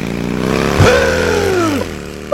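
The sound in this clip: A motorcycle engine revs loudly, its pitch climbing sharply and then sliding back down before settling into a steady throb.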